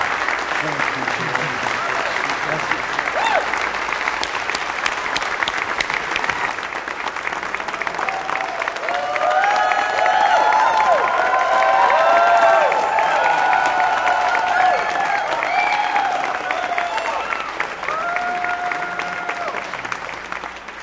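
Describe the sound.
Sustained church-audience applause with some cheering welcomes the founder and moderator of Metropolitan Community Churches on stage at Resurrection MCC, a loud, dense clapping roar that swells in the middle and carries on for the whole stretch.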